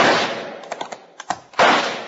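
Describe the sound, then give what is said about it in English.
Rifle shots fired at night: a quick run of several sharp cracks packed close together, set between stretches of loud, broad rushing noise at the start and end. “Now, I got a rifle, too. All right, shoot for that tall tree sticking up in the moonlight.”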